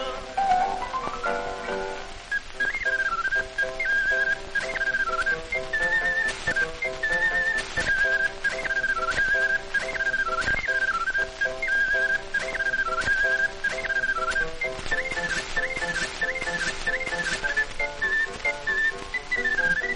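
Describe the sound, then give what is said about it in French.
A street vendor plays a small, cheap whistle instrument priced at one franc fifty, piping a bright, continuous melody that warbles up and down throughout, with faint background noise underneath. “Approchez, mesdames, messieurs, je vais faire un morceau de musique. Voici mon petit instrument, je ne le vends qu'un franc 50. Il est gentil, il est charmant, écoutez bien comment il chante.”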